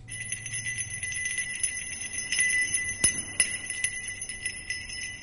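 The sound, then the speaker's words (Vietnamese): Small bell jingling softly as someone walks in, a faint, sustained tinkle with a few sharper, brighter strikes scattered through it. “Tiếng chuông khẽ leng keng kêu lên từ ngoài”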